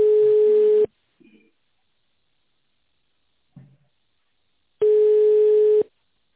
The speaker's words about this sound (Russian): Пожалуйста, подождите, пока мы переведем ваш вызов на первого освободившегося представителя.